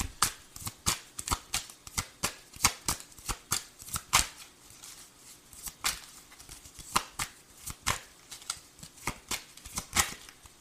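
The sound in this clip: Tarot cards being shuffled produce many quick, crisp riffling snaps and clicks in an uneven, steady rhythm throughout, with no voices.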